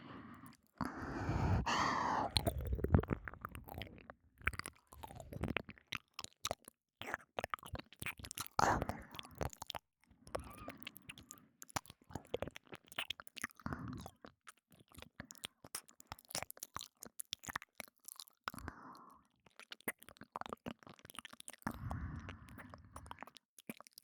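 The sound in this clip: Wet ear-licking ASMR mouth sounds: close, soft smacks, clicks and slurps repeat irregularly across the whole stretch, mostly quiet and continuous with a few brief pauses.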